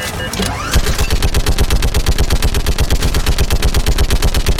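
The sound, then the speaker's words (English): Rapid automatic gunfire in a video game shooting gallery against Reaper Husks. A brief sweeping electronic sound comes first, then a loud, evenly spaced stream of many shots continues to the end. “So now we're in a shooting gallery game. Versus... Reaper... Husks?”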